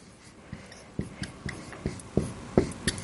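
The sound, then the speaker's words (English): A word being written on a board produces a run of short, faint scratchy strokes and taps in an irregular rhythm. No one speaks over them. “Let's write that word down.”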